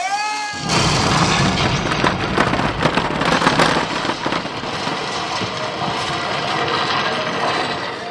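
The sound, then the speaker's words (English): A recorded dynamite explosion set off by a button at a museum exhibit bursts in suddenly after a brief tonal lead-in, then becomes a loud, sustained crackling and rumbling roar that continues to the end. “Push a button near the entrance, and you can set off a really satisfying dynamite explosion. All men clear out, she's gonna blow!”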